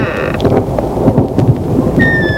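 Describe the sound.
Thunder rolls during a lightning storm, heard inside an empty, dusty house: a continuous loud, low rumble with fluctuating swells and a rain-like hiss layered over it.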